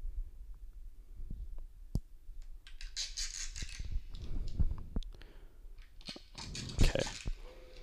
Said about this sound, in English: Someone is pulling out duct tape.